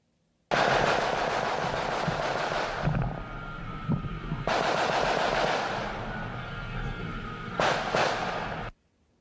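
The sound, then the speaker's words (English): Semi-automatic gunfire: long, loud stretches of rapid, dense cracking that run almost without a break for several seconds, with no voices. “Now, that is the sound of semi-automatic gunfire.”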